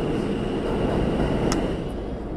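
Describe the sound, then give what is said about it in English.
Subway train leaving the station: a steady, broad rumble and hiss of rolling rail cars that stays fairly even throughout, without voices. “A final train leaves.”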